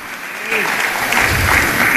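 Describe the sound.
Audience applause during a motivational speech in Spanish: dense, steady clapping that swells after a brief quieter start and keeps up to the end, with a voice faintly audible over it.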